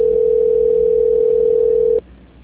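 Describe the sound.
A telephone line tone plays while a call is being transferred: one steady, unbroken pitch holds loudly for about two seconds, then cuts off abruptly, leaving faint line noise.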